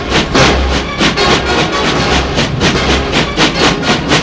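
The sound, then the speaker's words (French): Rhythmic rail clatter and a low rumble from a coal-fired train moving slowly into the Gare de Lyon station, a steady, even clickety-clack of wheels heard alone. “Le train arrive, gare de Lyon. Il s'arrête à la gare.”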